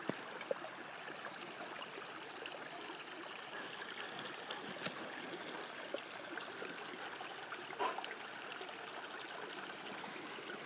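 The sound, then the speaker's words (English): Water runs in a stream beside a path. It makes a soft, steady rushing and trickling that continues evenly throughout, with no voices. “I guess the sound of water that runs like that”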